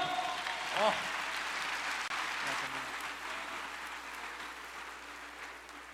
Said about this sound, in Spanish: ¡Un aplauso por eso!